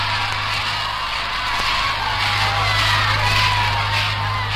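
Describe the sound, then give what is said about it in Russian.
Crowd cheering and shouting in greeting as victorious heroes return by a flower-garlanded steam train to the capital, a dense, continuous roar of many voices over a steady low hum. “Приветственные возгласы, поцелуи. Народ восторженно приветствует победителей.”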